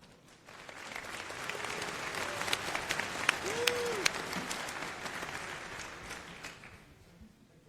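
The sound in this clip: Audience applause welcoming the keynote speaker at a Linux conference talk, a dense, steady wash of many hands clapping that swells early, holds for several seconds and tapers off near the end.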